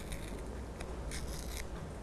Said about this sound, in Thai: ค่อยๆฉีกเลยค่ะค่อยๆขยับมือหรือว่านิ้วมือของเด็กๆ เข้าหาตัวเองแบบนี้เลย